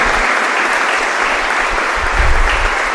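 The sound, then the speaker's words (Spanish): Dense, loud applause from a crowd at a deacon's ordination ceremony, the clapping sustained evenly throughout with no pause. “El primer aplauso a Jesucristo, servidor del plan de Dios.”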